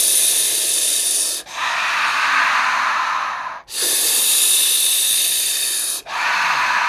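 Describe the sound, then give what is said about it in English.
Deep rhythmic breathing in and out as a breathing exercise, with long, loud, breathy hisses of about two seconds each, alternating airy inhales and lower exhales separated by brief pauses. “And then compensate by breathing in and holding for a few seconds, and then out breath and relax.”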